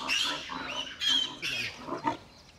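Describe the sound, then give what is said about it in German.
Sows with their piglets grunt and squeal as they are herded along onto pasture, with a few sharp, high squeals rising out of continuous rough grunting and no talk. “Hauptsache, die Sauen marschieren in die richtige Richtung. Die Ferkel folgen sowieso.”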